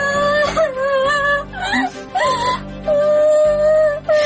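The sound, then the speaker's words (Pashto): A child crying in a drama scene: high, wavering wails in several drawn-out bursts with short breaks between them, loud and without other voices. “ولې ژاړي ګورې؟ څه خبره ده؟”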